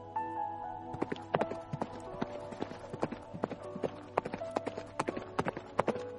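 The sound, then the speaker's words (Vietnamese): Hooves of a galloping horse clip-clop in many quick, sharp strikes at a fast, uneven rhythm, fairly faint throughout. “Trường Sinh lập tức lên ngựa phi nhanh đi.”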